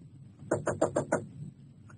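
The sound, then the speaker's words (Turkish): Five quick, evenly spaced knocks on a door in a radio drama, sharp and fairly loud, with quiet between them and no voices. “Çal kapıyı bakalım.”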